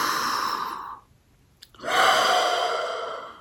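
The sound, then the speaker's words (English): Deep breathing during a guided breathing exercise: two long, airy breath sounds, each lasting over a second, separated by a brief pause, with the second slightly louder. “So let's just take a couple breaths. We'll take an inhale.”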